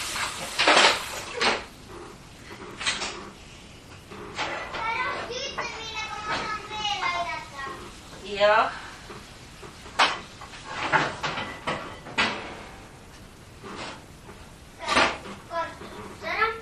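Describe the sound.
Pans and cupboard doors clatter as someone searches a kitchen for a frying pan. Sharp, irregular bangs and knocks are spread throughout, and a child and others talk between them.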